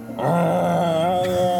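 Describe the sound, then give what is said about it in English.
A human voice imitates a creature's groan coming from a grove of trees during a tabletop role-playing game. The groan is low, drawn out and wavering, held for about a second and a half without a break. “You hear another groan coming from a little further up inside the grove of trees.”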